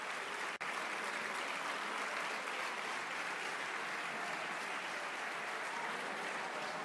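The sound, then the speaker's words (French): Sustained applause from a parliamentary majority giving a standing ovation to the labour minister, a dense, steady roar of clapping that holds evenly throughout with one brief dip near the start. “Standing ovation de la majorité pour Muriel Pénicaud, ministre du Travail.”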